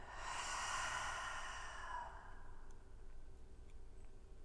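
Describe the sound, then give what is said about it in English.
A full exhale through the open mouth after a held breath in a breathing practice, a faint, soft breathy rush lasting about two seconds that fades into near silence, with no talking. “Hold the breath in. Open your mouth and exhale fully.”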